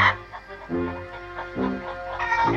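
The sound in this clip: Chickens clucking in a rural African village, giving a few throaty, harmonic calls in a loose, uneven rhythm at moderate loudness with no talk.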